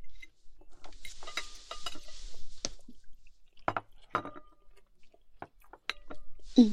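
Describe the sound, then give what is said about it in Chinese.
Someone eats, chewing food with irregular wet, crunchy mouth sounds and soft bites. The sounds come in scattered bursts separated by brief pauses. “快吃吧。”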